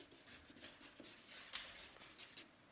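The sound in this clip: Quiet scratching of a pen writing during a live talk on stage: a quick run of short, dry strokes and scrapes with no voices.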